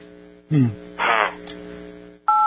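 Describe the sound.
A single telephone touch tone beeps from a dialing keypad near the end, a short steady two-note chirp after a few bursts of people talking.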